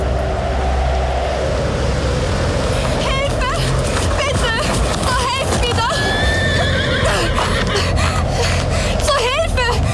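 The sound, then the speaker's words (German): A horse whinnies several times on a stormy night as a rider comes into town. The shrill, quavering neighs rise over a steady, loud roar of storm noise throughout. “In einer stürmischen Nacht, nur wenige Tage später, kam Elizabeth Blessenville dann nämlich höchstpersönlich in die Stadt geritten.”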